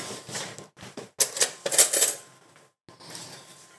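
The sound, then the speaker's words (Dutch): A fork stirs through a pan of ragù bolognese, scraping and clinking against the metal in a few irregular bursts of bright, clattering contact. The sounds rise and fall with brief pauses in between. “En dan een keer direct mijn vork in roeren.”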